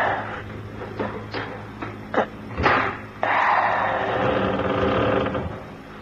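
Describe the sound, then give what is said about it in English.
A window catch is forced open: a few sharp knocks and dull thuds, one heavier, followed by a sustained, louder rough rattling noise. “Try the catch on the window. Okay. If we can open it, we can hear what's going on. Well, there's nothing going on. Well, try and open it anyway.”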